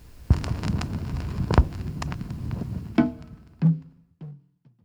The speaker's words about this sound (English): We'll drop the needle and we'll get into it.